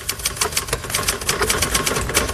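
A typewriter clatters as a final text is typed out, a quick, steady run of many sharp mechanical keystrokes, loud and alone.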